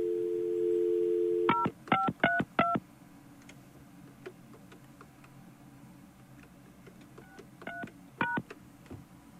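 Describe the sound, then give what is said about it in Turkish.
Telephone call being dialed: a steady dial tone gives way to a quick run of bright keypad beeps, then a quiet stretch with a soft background hum, then a few more beeps. No ringing is evident. “sizi ne zaman arasak önce meşgul çalıyor sonra çalıyor efendim. Nasıl böyle oluyor anlamadım. Şimdi çalacak.”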